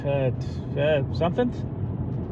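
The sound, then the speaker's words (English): Low road rumble fills a car's interior while driving home from work, a steady dull drone beneath a man's voice. “Driving home from work, if I sound different, it's because”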